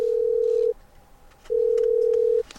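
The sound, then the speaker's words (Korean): Telephone ringback tone while a call is being connected: two long, steady, mid-pitched beeps separated by a short pause, clean and with no talk. “그래서 그 주인공인 김용우 선수를 연결해 보겠습니다.”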